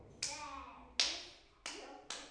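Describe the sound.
Four crisp knocks are tapped one by one onto children's hands in a circle game. Each quiet, sharp tap is spaced about half a second apart and dies away quickly.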